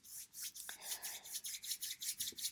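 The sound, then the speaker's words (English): Two hands rub briskly together, a soft dry swishing repeated in many quick, even back-and-forth strokes, faint and alone. “But if you like, just take your, your both your hands and rub them together.”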